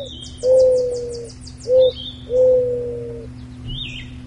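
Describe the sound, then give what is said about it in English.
Mourning dove cooing: three low, hollow hooting notes, a long coo, a short one, then another long one, with faint high chirps from other birds above. “And that was the mourning dove, which is scheduled to start laying eggs this week.”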